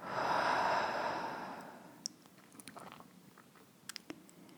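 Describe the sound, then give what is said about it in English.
A long exhaled breath during a guided breathing exercise: a steady, airy whoosh that swells briefly, then fades over about two seconds, followed by a few faint clicks. “So let's take a deep breath in through the nose. Exhale completely.”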